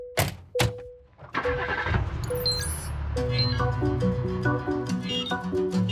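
A taxi engine starts with a rough, revving roar and keeps running as the car drives off, while a bright musical tune with held notes comes in over the engine noise.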